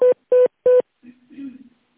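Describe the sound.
Telephone tones during a call transfer: three short, even beeps at a steady pitch and rhythm, followed by a faint, muffled voice on the line.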